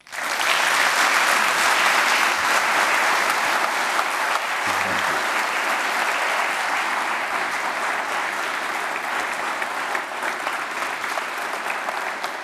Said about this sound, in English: Ladies and gentlemen, please welcome to the stage with his talk, Brilliant Blunders, Dr. Mario Livio.